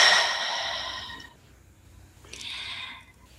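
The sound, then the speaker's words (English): A person releases a deep breath during a guided breathing exercise: a long, airy exhale that gradually fades, then a shorter, softer breath after a quiet gap, with no talk. “take another deep breath in. And release.”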